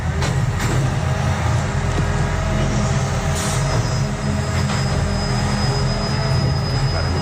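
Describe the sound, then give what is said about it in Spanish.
An old garbage truck collects a cardboard recycling container at night: a loud, steady engine rumble runs throughout, with a thin high whine setting in partway through and a few short knocks. “Un camión de recogida de basura. ¿Seguro? Te diría que es de cartón, precisamente, o sea, es recogida de contenedor de cartón”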